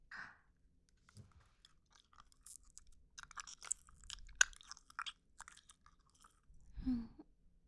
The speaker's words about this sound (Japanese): じゃあガムを口の中に入れますね。